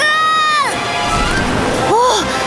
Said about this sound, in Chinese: 没想到能近距离欣赏瀑布，伊瓜苏瀑布真的是太美了。